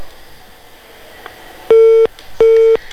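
Telephone busy tone after a caller's line cuts off: two loud, identical steady beeps of equal length, evenly spaced, over a faint background hiss.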